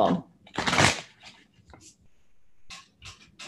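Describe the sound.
A deck of reading cards shuffled once more before a reading. There is one short, loud rustling burst, followed by scattered softer taps and rustles.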